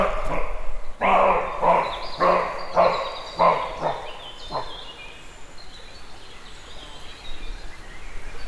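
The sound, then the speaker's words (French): A roe deer barks in a forest, giving a run of harsh, hoarse barks in a steady rhythm. The barks grow weaker and stop about halfway through, leaving a quiet hiss behind. “Un chevreuil.”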